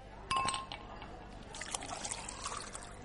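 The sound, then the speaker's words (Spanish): Liquid pours into a wine glass: a brief bright glassy clink, then a faint, uneven trickle of pouring that continues to the end. “Te voy a llenar la copa.”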